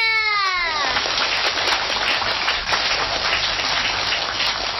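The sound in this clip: Applause in a studio at a children's singing contest. A brief high voice at the start gives way to a dense, even wash of many hands clapping that continues loudly throughout.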